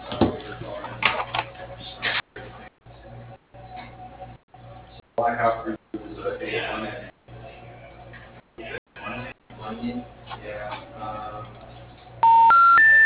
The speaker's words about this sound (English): Enter the area code and number that you dialed.